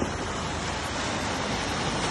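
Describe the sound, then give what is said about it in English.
A steady, loud, rushing roar of ocean water at the seaside as a tsunami begins after earthquake shaking. The broad wind-like surge holds constant throughout with no distinct breaks and no voices. “The water just receded and you could see all the sand, and then it just comes rushing back in, and then it recedes and comes rushing back in.”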